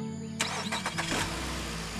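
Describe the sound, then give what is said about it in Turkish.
A car engine is started after a repair: the starter cranks in a few quick bursts, then the engine catches and settles into a steady, low running rumble. “Hadi eğer araç tamamsa vakit kaybetmeden köye dönelim. Veli kardeşim şimdi bir çalıştır bakalım.”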